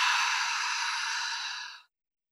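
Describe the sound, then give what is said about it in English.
One long, deep breath pushed out through the mouth during a guided relaxation exercise, a soft, airy hiss that holds steady for nearly two seconds before trailing off into silence. “and a deep breath out through your mouth. Do this 3 more times. Breathe in through your nose, out through your mouth,”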